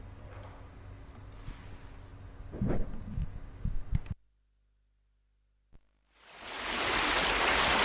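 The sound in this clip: Sea waves used as a sound effect in an experimental radio piece. A rushing wash of noise with scattered crackles drops into near silence, then swells back up into a loud, broad surge at the end.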